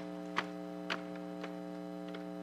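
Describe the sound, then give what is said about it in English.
An air conditioning unit runs in a room with a steady low electrical hum. A few faint, soft ticks sound over the hum. “I got the air conditioning rolling in here.”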